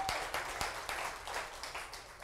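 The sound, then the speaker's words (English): An audience claps during a church service. The faint, uneven hand clapping has scattered sharp claps over a soft continuous patter. “So stand to your feet. Give the Lord a good hand clap.”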